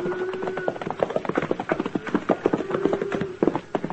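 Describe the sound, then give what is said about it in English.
Horse hoofbeats loping up beside a cattle herd on a trail drive: a rapid, steady clip-clop of many hoof strikes that carries on without pause, fairly loud and with no talk over it. “Jax and I were riding the swing of the herd when Dolph Quince loped up behind us.”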